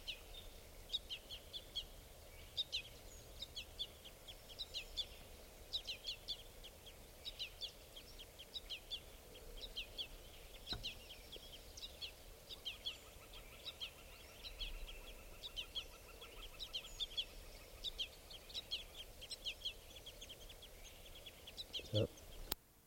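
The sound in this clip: Juvenile bird calling: many short, high chirps repeat in a steady rhythm throughout, fairly faint over a low background hiss.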